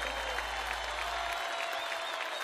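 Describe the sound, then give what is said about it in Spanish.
Audience applause at the Cosquín folk festival, steady and dense clapping from a large crowd that holds at an even level throughout. “Más fuerte el aplauso para Nahuel Penisi.”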